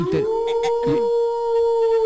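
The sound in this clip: A wolf howls in one long, steady, mid-pitched tone that holds almost level for well over a second. Voices talk over its opening.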